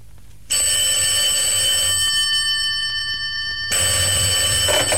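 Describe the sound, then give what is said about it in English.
An electric telephone bell rings with a bright, metallic, continuous trill, starting abruptly, sounding in one long burst, pausing briefly, then ringing again until the end. “I returned from lunch earlier than was necessary and then waited impatiently for the call.”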